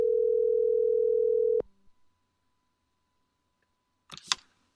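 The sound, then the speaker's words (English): A steady telephone dial tone hums loudly while a call is placed to a cell phone, then stops abruptly with a click after about a second and a half. Near silence follows, then a brief burst of noise near the end. “Okay, should be dialing here.”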